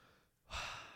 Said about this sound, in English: Deep breath.